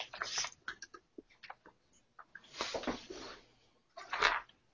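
Typing on a computer keyboard, heard as faint, irregular clicks and taps that come in a few short clusters with brief pauses between them.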